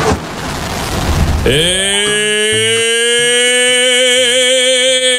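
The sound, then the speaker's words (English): A rocket blast-off sound effect: a rough, noisy rumble for about a second and a half, then a bright, sustained harmonic tone that bends upward and holds with a slight wobble over low, pulsing beats. “Blast off!”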